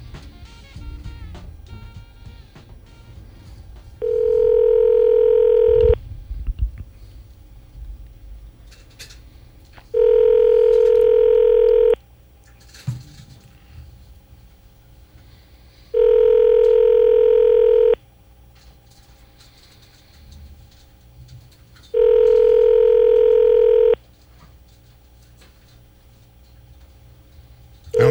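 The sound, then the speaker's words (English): A telephone call is placed: faint clicking dialing ticks come first, then four evenly spaced ringing tones, each about two seconds long with roughly four seconds of quiet between, and no one answers. “We're going to call Chester.”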